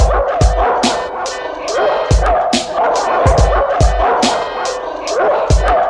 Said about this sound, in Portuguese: Não vá se assustar quando escutar o cachorro latindo.